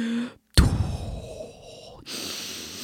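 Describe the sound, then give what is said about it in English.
A voice imitates someone breathing loudly through the nose: a sharp, noisy intake leads into a long airy breath, followed by a second breath, with no words. “When someone breathes too loud through their nose.”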